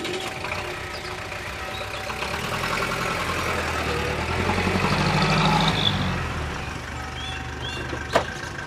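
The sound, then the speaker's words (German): A taxi engine idling: a steady low mechanical rumble with a soft hiss that swells slightly in the middle and then settles, and a single sharp click near the end. “Hallo, Taxi!”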